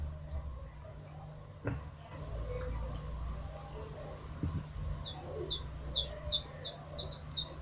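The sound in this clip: Birds in trees chirp faintly, including pigeons. A quick run of short, high tweets arrives in the second half over a low, steady background hum.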